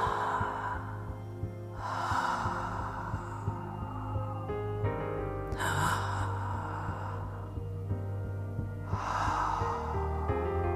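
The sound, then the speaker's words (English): Slow breathwork breathing with long, airy exhales, about four soft, unhurried breaths spaced across the stretch, over a low steady hum. “So the breath pattern will feel like this.”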